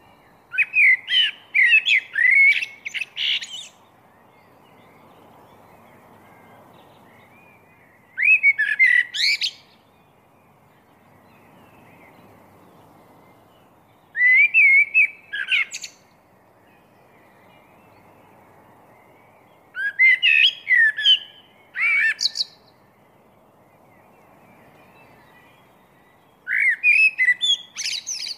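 A blackbird sings in the chilly pre-dawn darkness, giving five bursts of rich, fluting phrases with squeaky high flourishes. Long quiet gaps separate the bursts, and the last one is cut off.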